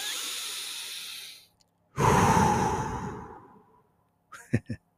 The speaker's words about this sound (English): let's just take a fucking breath.